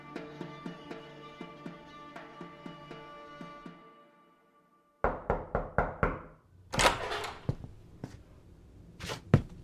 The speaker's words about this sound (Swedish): En morgon knackade pappa på min dörr för att väcka mig.